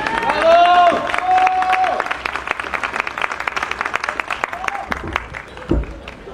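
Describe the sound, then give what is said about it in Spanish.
A voice speaks briefly, then an audience at an evening talk event breaks into applause to welcome a speaker. Sharp individual claps stand out within a steady patter that thins toward the end. “Un aplauso para ella, por favor.”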